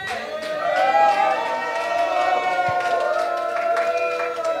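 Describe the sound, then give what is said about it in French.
A live audience in the salle des fêtes of Crépy-en-Valois cheers with loud, overlapping voices and shouts. Scattered clapping runs through it, and the noise stays strong and steady throughout. “nous sommes à la salle des fêtes de Crépy-en-Valois en public. La preuve, écoutez.”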